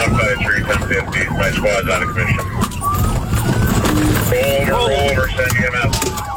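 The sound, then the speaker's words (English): Police siren wailing on dash camera audio from a high-speed chase by sheriff's deputies. Loud, sweeping tones rise and fall repeatedly over continuous road and engine noise. “That's dash camera audio from Friday, which ended with the suspect driving into a farm field and is accused of hitting a squad car on purpose, then attempting to flee again.”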